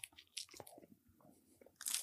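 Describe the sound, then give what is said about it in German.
Teeth bite into a heart-shaped Niederegger marzipan chocolate, making a few faint, crisp crunches and snaps followed by soft chewing. “Ist das wirklich mit Marzipan? Ja. Ich probier's mal, warte.”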